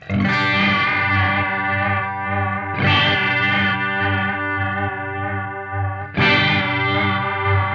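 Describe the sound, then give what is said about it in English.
An instrument signal runs through a tremolo pedal set to tremolo-chorus, slow, with depth and regeneration maxed. Three struck notes ring out in turn, each sustaining with a deep, wavering warble. “let's try this delirium tremolo. So we're going to basically match this. The depth is cranked, the regen is cranked, and we're on tremolo chorus.”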